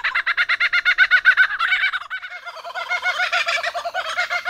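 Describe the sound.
A common kookaburra's laughing call: a fast run of loud, repeated chuckling notes that carries on without pause through the whole stretch, with no voices.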